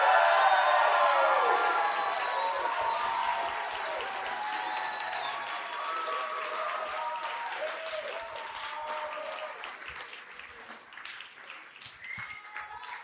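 An audience at a science comedy debate applauds and cheers, a dense wash of clapping that starts loud and steadily fades over the length, with a few scattered shouts.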